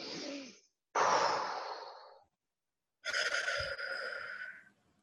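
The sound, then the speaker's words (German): Deep breaths drawn in through the nose: three loud, airy rushes, the middle one strongest, each fading out and separated by short silences. “schließ deine Augen und atme mal ganz tief durch, so richtig in die Nase rein”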